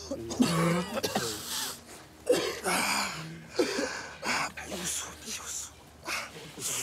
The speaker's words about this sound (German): Husten ist so.